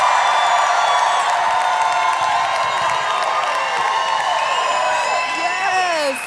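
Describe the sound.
A large crowd at the CMA Fest country music festival cheers and applauds in a loud, continuous roar of clapping, whoops and shouts that holds for about six seconds.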